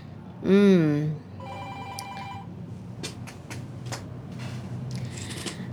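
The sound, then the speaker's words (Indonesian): A telephone rings with an incoming call to a call-in line. One loud warbling ring burst is followed by fainter electronic tones and a few soft clicks. “Sudah ada lagi nih yang nelfon. Sebentar.”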